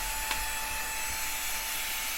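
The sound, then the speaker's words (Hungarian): Vacuum cleaner in a video game sucking cat hair off a table, a steady, even whirring hum with a broad hiss that holds at one level throughout, with no voices. “A porszívó, amivel fel tudom porszívózni a cica által asztalra szórt szőr.”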